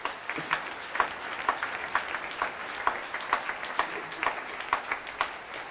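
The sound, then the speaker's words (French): An audience applauds the word of God with faint, steady clapping that falls into an even, regular beat, the many hands keeping a rhythmic pulse throughout. “Alors, gare à l'autodidactisme dans ce domaine. Acclamons la parole de Dieu.”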